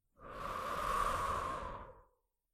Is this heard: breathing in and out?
yes